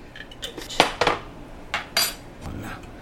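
A spoon mixes salt, green chilies and turmeric in a cooking pot, giving a few quiet clinks and scrapes of metal against the vessel at an uneven rhythm, with no talking.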